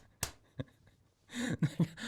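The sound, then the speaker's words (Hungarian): Two sharp hand claps ring out, the first crisp and louder and the second softer, followed by a short burst of voice. “Ezért jár 2 darab taps.”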